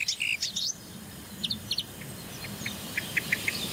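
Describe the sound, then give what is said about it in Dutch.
A great tit and its fledged young call alongside a blackbird: many short, high chirps and thin calls repeat in quick series over a steady background hiss. “Merel weer. Koolmees en een uitgevlogen jong van een koolmees.”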